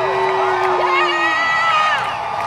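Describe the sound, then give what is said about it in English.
An audience boos, and drawn-out voices overlap into a loud, continuous mass with some higher shouts rising above it. “Yeah, more boos than applause there, and deservedly so.”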